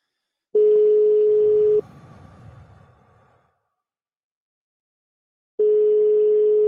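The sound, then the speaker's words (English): A European-style telephone ringing tone: a steady mid-pitched beep lasting over a second, a long silence, then the same tone again, loud and clean. “Got that European ring.”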